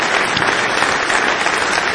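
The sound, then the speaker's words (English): Audience applause for a musician after a performance: dense, steady clapping that stays loud and even throughout, with no voices. “One more big round of applause for Peter Case.”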